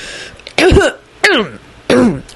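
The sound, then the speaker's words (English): A man clears his throat three times, loud rasping bursts spaced evenly with short silent gaps between them, each a rough, gravelly scrape of the throat. “cleared his throat a few times and paused dramatically”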